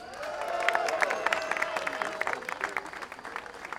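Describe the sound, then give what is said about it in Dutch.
Audience applause greets the general manager of Walibi Holland at the opening of Europe's first hybrid coaster at a theme park. Many hands clap in a dense, lively patter that stays fairly steady and loosens slightly near the end. “Give her a big hand, Masha van Til.”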